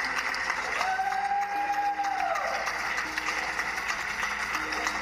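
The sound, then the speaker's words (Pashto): Faint, steady clapping from many people on balconies and at open windows of homes in Europe, an evening show of praise for health workers during the coronavirus lockdown, with sustained tonal sounds running over it. “خلک هر ماښام د خپل کورونو په پرانستو کړکیو، بالکنیو او بالاخانو کې درېږي او په داسې حال کې سندري وایي، د ستاینې نارې وهي او چکچکې کوي”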